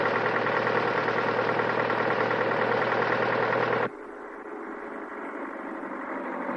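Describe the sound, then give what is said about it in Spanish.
A truck engine idles as it pulls over at a roadside petrol station, a steady, loud mid-pitched rumble that drops abruptly about halfway through to a quieter, lower hum. “Paran en la calzada a la altura de la estación y se baja del vehículo.”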